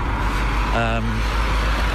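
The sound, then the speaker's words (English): Cars pass along a busy street in Govan Hill, producing a steady, heavy low rumble of traffic. The engine drone is continuous and fairly loud for the whole stretch, with no distinct single pass standing out. “quite a busy street, lots of cars coming down here, families, mums with buggies.”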